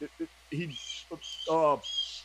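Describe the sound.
Birds chirp in high, bright repeated bursts that overlap a voice talking in low tones.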